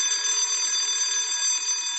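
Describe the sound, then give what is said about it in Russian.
A school bell rings as a continuous, loud electric tone that holds steady and high-pitched without a break, with no voices. “Но тут прозвенел звонок, и нам пришлось идти в класс.”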